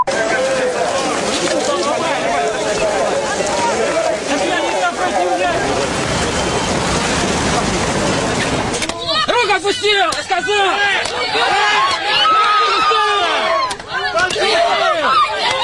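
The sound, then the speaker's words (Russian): A crowd inside a street protest rally produces loud, dense overlapping voices and shouting throughout, and the texture shifts abruptly partway through to sharper, more agitated bursts of yelling. “А сейчас давайте послушаем, вот как это все происходило, какое ощущение было там, когда находишься внутри этой толпы, вот звук этого, этой акции.”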